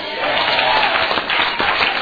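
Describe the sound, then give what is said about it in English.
A church audience claps their hands together, a loud, steady patter of many hands that continues throughout with little variation. “come to church, you can clap your hands.”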